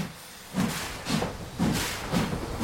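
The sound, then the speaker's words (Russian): Rhythmic chuffing of a steam locomotive starting to move in reverse: five strong hissing bursts at a steady pace rise over a continuous low hiss. “Федоров принимается раскручивать рычаг. Паровоз начинает движение в обратную сторону.”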